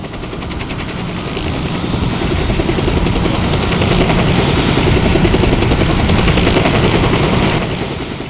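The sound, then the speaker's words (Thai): Army helicopter rotor blades whir loudly above a boat as a hoist basket is lowered, a dense, continuous roar with a rapid throbbing texture that holds steady throughout and eases slightly at the very end. “เสียงใบพัดตัดอากาศดังกระหึ่มและมีการหย่อนกระเช้าชักรอกลงมา”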